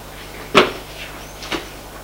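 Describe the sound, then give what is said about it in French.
A residential door being opened after a blow to it: two short wooden clunks, a sharp louder one followed about a second later by a softer one, over a faint steady hum. “Il faut ouvrir la porte. La porte s'est ouverte.”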